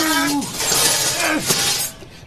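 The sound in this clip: Two metal garden statues falling and crashing, producing a sustained burst of loud clattering and banging impacts over about two seconds before cutting off.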